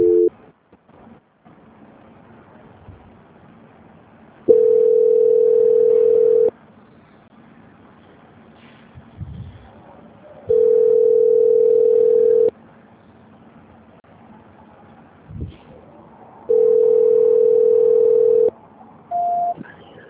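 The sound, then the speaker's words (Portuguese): Telephone tone after a dropped call: three long, steady mid-pitched tones of about two seconds each, separated by longer quiet gaps over low line noise, then a brief higher beep at the end. “Caiu a ligação, alô.”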